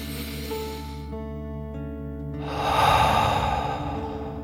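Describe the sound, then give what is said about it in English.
A deep breath in and out during a calming children's meditation, a soft airy rush that swells in the second half and then eases, over steady sustained musical tones. “As you relax, let's take another deep dragon breath in and out.”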